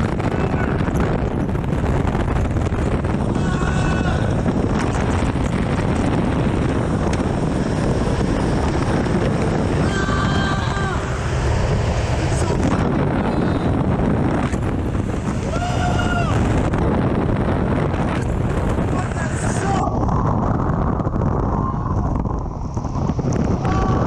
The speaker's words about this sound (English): The big wind fucking tunnel. Oh, that shit is cold!